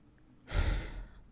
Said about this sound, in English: Breathe deep, breathe from the stomach, breathe in.